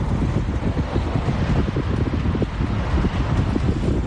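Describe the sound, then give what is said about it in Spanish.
Strong, gusty wind blows during a yellow-alert windy day in Alicante, with gusts of up to 80 km/h. It makes a loud, continuous roar with low rumbling buffets that pound the microphone throughout. “Así sopla el viento para empezar la semana en lo que se espera sea la última jornada con rachas hoy de hasta 80 kilómetros por hora.”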